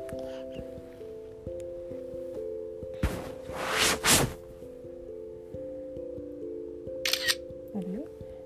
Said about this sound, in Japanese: お写真お写真撮った